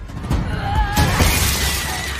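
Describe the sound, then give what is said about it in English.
Glass shattering as a person is thrown through a stained glass window: a loud, sustained crash of breaking glass fills the whole moment, with a bright, scattering spray of shards and no voices. “Linda throws Heather through the stained glass.”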